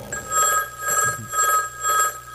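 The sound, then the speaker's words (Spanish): A telephone rings in a house in North Yorkshire, England, giving four bright, trilling bursts of ringing separated by short, even pauses, with no voices. “el teléfono suena en la casa de Lord Armstrong, en el norte de Yorkshire, Inglaterra. Su mayordomo contesta la llamada.”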